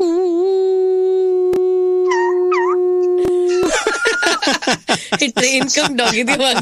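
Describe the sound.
A dog howls in a long, steady, wavering tone, with a brief higher glide partway through, heard on a train. People then talk over it as the howl gives way.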